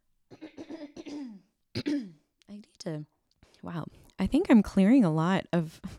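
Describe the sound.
Repeated throat clearing: a run of short, rasping voiced bursts separated by pauses, then longer, louder clears with strained vocal tone toward the end.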